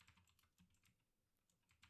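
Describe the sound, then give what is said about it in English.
Typing on a computer keyboard: many quick, irregular keystroke clicks, soft and close together, with short pauses between bursts. “Typing and speaking at the same time is difficult.”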